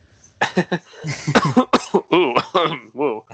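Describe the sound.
Coughing from something stuck in the throat: a rapid, irregular series of harsh, voiced hacking coughs and throat-clearing bursts, loud and strained.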